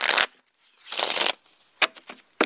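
Playing cards riffle and snap during a one-handed cut: two longer bursts of crisp card rustling, then three short, sharp snaps, fairly loud with no voices.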